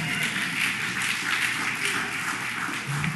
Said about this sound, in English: If you're into baseball, go ahead, you can cheer.